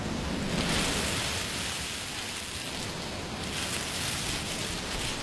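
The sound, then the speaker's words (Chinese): Soft ocean waves sound like a steady rushing hiss, heard through a conch shell held to the ear. The quiet, even whoosh continues without distinct surges or breaks. “妈说，把海螺放在耳边，就能听到大海的声音。你听。”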